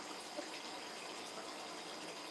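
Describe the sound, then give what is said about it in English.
Cold water running from a tap to fill a bath, a soft, steady rushing hiss that continues evenly without breaks. “Bath time. The water is like cold. It's not that loud.”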